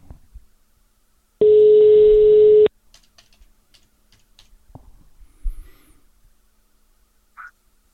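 A single steady electronic telephone tone sounds while a prize winner is being called. It lasts just over a second, then gives way to near silence with a few faint clicks.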